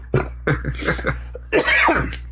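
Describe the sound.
Throat clearing from someone trying to get rid of a scratchy throat: several harsh, rasping bursts in quick succession, the last one longest and loudest, with no talking.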